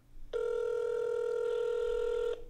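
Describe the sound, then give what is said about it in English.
Ringback tone of an outgoing phone call waiting for someone to answer: a single steady electronic ring lasting about two seconds, clear and alone, then cut off. “There's going to be a missed call from you. I can't believe we're doing this. I feel like he's going to answer.”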